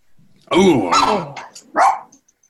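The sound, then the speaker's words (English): A pet dog barks a few times in quick succession, loud mid-pitched barks with short gaps between them and no talk over them. “That's my pet right now, my pet dog.”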